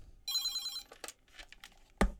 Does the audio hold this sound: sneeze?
no

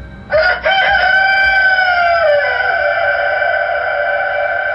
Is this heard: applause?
no

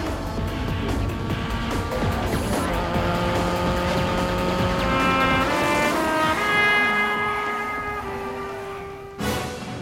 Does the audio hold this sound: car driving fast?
yes

